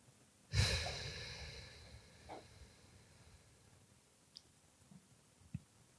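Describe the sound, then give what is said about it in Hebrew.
A deep breath drawn in and released during a mindfulness meditation: one long, breathy rush near the start that slowly fades, followed by a few faint soft clicks. “שאיפה עמוקה. עם נשיפה מרפים את הגב והאגן.”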